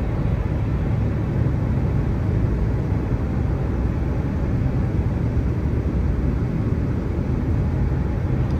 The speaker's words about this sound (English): Oh, there goes the press plane.